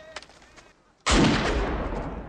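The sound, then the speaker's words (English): A pistol shot fires as a single sudden, loud blast. A long, heavy roar follows it and stays loud to the end, after a quieter stretch with a few faint sounds. “Discharge your weapon. Do it!”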